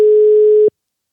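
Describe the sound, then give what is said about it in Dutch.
A steady telephone tone sounds during an outgoing call, a single clear mid-pitched tone lasting under a second before it cuts off into silence. “Nou, dan gaan we nog even één iemand anders bellen.”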